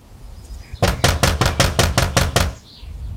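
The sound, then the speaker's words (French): Knocking on the door of an old man's house in a French village in November 1905: a rapid, even run of many sharp, loud knocks, alone, lasting under two seconds. “Eh ben viens, on va aller frapper chez lui.”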